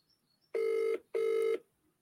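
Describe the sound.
A telephone call to a mobile phone rings out: two steady, buzzing ringback tones of equal length with a brief gap between them. The tones are clear and heard alone, with no talk.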